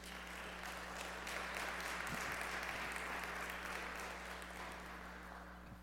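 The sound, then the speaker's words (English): Sustained applause from a church audience for the praise team, a steady dense patter of many hands clapping at an even loudness for the whole stretch, with no voices standing out. “They did a pretty good job, didn't they? You know, give them a hand for the praise team.”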